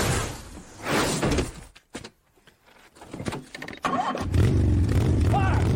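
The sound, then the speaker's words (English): A motorcycle engine starts and settles into a steady low drone in the latter part, as the stunt double drives off on the bike. Voices and clatter come before it. “And then his stunt double drives off on the bike. Yes. So, now, why the motorcycle?”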